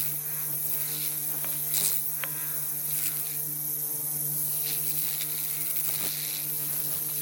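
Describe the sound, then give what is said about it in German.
Dentist's instruments buzzing in a calm, near-meditative sound art composition. A steady electric drone with layered hum and a high whine runs throughout, with a few brief clicks and sharper swells along the way. “Ihre Mutter ist Zahnärztin und deshalb hat Hacic Zugang zu den einschlägigen Instrumenten und ihren Geräuschen. Daraus hat sie eine feine, fast meditative Komposition geschaffen.”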